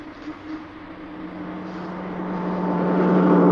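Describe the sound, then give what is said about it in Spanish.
A truck's engine approaches along a road as a steady low rumble with a humming drone, growing gradually louder throughout. “Un camión viene hacia él.”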